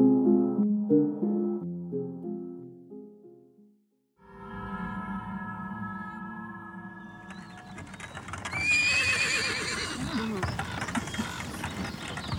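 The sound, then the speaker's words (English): Horse neighing while pulling a wagon: a pitched, wavering whinny at the start, then a sustained mix of tonal creaks and clattering noise that grows louder and brighter in the second half. “It's your turn to drive the wagon.”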